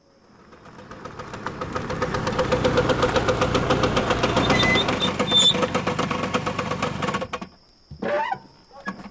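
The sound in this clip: A motorbike engine runs with a dense, rapidly pulsing throb. It swells, holds steady for several seconds, then cuts out near the end, followed by a few brief scattered noises.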